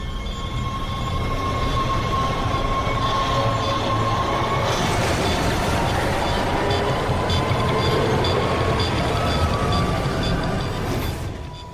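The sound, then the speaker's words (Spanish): A train carriage gives a loud, steady rumble of rolling wheels and rattling that runs almost the whole time, with faint high squealing tones riding over it before it eases off at the very end. “El tren dio un bandazo y Kaufman perdió el equilibrio.”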